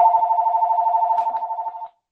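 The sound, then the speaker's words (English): A phone rings with one steady, sustained electronic trill that lasts nearly two seconds and then cuts off abruptly. A brief faint noise follows, with no voices. “is that your phone? Yeah, keep going.”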